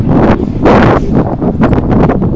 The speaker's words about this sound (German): Da ist es schon wieder windig.